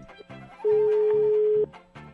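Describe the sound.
A telephone ringback tone sounds as a call is being placed: one steady, mid-pitched beep lasting about a second, loud over softer background music.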